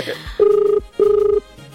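An outgoing telephone call rings: two matching bursts of a warbling, mid-pitched ringback tone, separated by a short gap.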